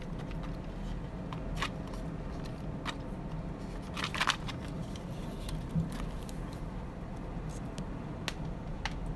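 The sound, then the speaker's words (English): Faint plastic clicks come from a phone pop socket being fiddled with in a bedroom. Several short, sharp snaps land at irregular intervals over a low, steady background, with no talking. “You've probably been getting some weird noises from me playing with my pop socket.”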